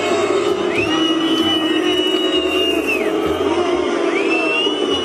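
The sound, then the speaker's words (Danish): A football stadium crowd boos during a World Cup match at a mid-half drinks break. A sustained, droning mass of voices is cut by a couple of shrill rising whistles. “Hvorfor buer folk midt i kampen? Det gør de, fordi der er pause, fordi de skal ud og drikke.”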